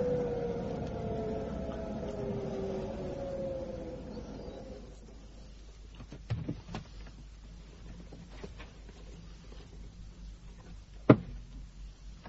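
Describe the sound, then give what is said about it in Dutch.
A car drives up to a garage. Its low engine rumble holds steady, then dies away after about five seconds, leaving faint clicks and a single sharp knock near the end. “Hij heeft zijn lichten gedoofd. Ja, hij rijdt naar de garage.”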